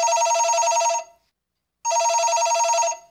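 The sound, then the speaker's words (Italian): Telephone ringing with an incoming call: two long bursts of a bright, buzzing electronic ring separated by a brief silent gap, each burst loud and steady. “Io non so adesso se abbiamo per esempio una chiamata in arrivo.”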